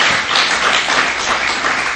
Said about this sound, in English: I really hope that you're clapping for God, because that's who did that, honestly.